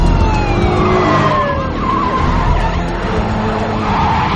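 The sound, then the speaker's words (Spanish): Several cars approach a jet at an airport hangar with loud, continuous engine roar and screeching tires. Wailing sirens glide downward in pitch throughout. “Los coches le siguen a distancia. Lee hace una seña a Landon. Él y Sophie se levantan. Los coches se acercan.”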